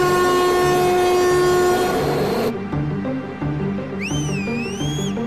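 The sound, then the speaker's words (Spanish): A train approaches on the tracks. Its horn gives one long, loud, steady blast, then the wheels roll in a rhythmic clickety-clack under a low rumble, and a high wavering whine rises over the wheels near the end. “El tren se acerca”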